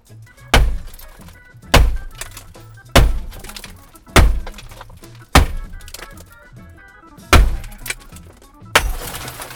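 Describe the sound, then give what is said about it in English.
A hammer repeatedly bounces off a car window, probably safety glass: eight sharp, loud thunks at roughly even intervals, each with a short ringing decay, and no talk between them. “Here was the sound of one of us, I think it's me, repeatedly bouncing a hammer off a window.”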